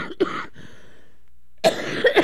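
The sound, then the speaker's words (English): Harsh coughing from a man with a cough, in two loud bursts separated by a short pause. “Forgive my cough.”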